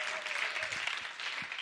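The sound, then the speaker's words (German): Audience applause fills a church gathering in a dense, steady wash of clapping that holds at an even loudness from start to end. “Also, gebt mir mal einen kräftigen Applaus.”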